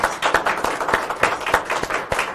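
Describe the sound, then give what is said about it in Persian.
Applause from an audience after a sung performance, a short round of bright, steady clapping with regularly spaced louder peaks, heard alone without talk. “یه دست به افتخار سالا.”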